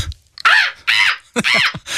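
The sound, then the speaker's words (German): A human voice imitates a seagull call with a few loud, harsh, throaty squawks in quick succession that come out more crow-like than gull-like. “Ich kann übrigens eine Möwe nachmachen.”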